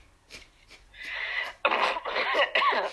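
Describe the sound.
Throat clearing during a tabletop role-playing game: first a faked clearing, then a real one. A few raspy, gravelly bursts follow a near-silent start, moderately loud and alone.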